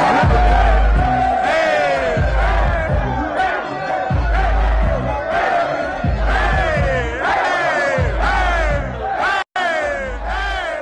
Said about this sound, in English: This is sound of the Gator locker room in celebration after the come-from-behind win over FCS Samford this past Saturday.